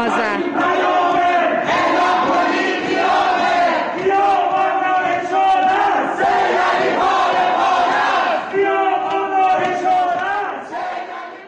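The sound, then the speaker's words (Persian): A large crowd chanting protest slogans at night in Tehran's Ekbatan housing complex, many voices shouting together in a loud, rhythmic, repeating cadence that carries on throughout. “مردم شعارهایی سر دادن که بد نیست صدای اونها رو هم بشنویم.”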